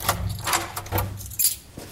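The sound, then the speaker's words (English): Keys jangling as they are taken out to unlock an apartment door, a few bursts of bright metallic clinks and rattles over two seconds, with no talk. “Now we're gonna take these keys out and we're going to access the apartment”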